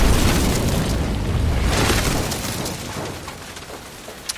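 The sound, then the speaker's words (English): Grapeshot explodes at the aft of a ship: a broad, booming roar that starts loud and slowly rumbles away over several seconds, ending with a faint crackle. “it bounces off of something that is not there and tumbles towards the aft of the ship and explodes.”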